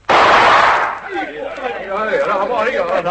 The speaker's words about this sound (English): Send a shot across the bow of the dinghy, Ginge.